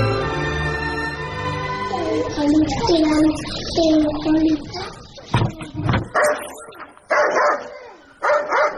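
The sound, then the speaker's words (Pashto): A dog barks in several sharp, loud bursts through the second half, after a stretch of higher whimpering. People talk over parts of it. “دا سپی دې در وګرځوه چې ومې نه داړي. راځه راځه، نه دې داړي.”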